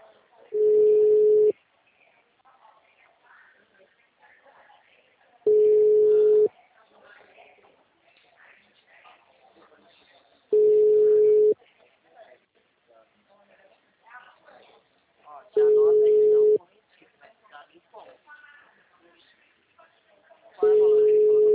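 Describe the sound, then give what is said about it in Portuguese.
A telephone line tone sounds while a number is called: a steady mid-pitched beep about one second long repeats five times at even intervals, with faint talk in the gaps. “Eu tô ligando pra ele aqui porque o número que eu tava falando com ele não é. O número está ocupado.”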